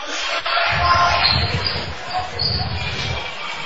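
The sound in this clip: A basketball is dribbled during a high school game between Pisgah and East Henderson, a run of dull, low thumps under steady crowd murmur and shuffling.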